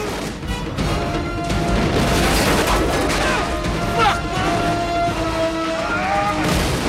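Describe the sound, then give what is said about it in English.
A massive ether explosion and gunfire from gunmen on an aircraft's wing roar as a dense, loud wall of crashing, booming noise that barely lets up, with sharp bursts scattered through it. “The ether ignites in a massive explosion. Gunmen sidestep out onto the wing of the aircraft, firing at Marcus and Mike.”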